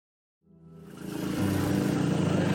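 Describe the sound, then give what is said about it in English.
Tuk-tuk engine while riding through a red light district in Southeast Asia. A rough, buzzing motor fades in after a short silence and builds to a steady, loud drone, with no talk. “I'm riding in a tuk-tuk in the red light district here in Southeast Asia.”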